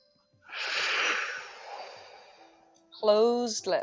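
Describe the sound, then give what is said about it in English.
A long, raspy breath drawn with a contraction at the back of the throat gives a hoarse, hissing rush that swells and then fades. A voice begins speaking right after. “slightly keeping a contraction in the back of the throat. So it sounds a bit more like Darth Vader, the breath.”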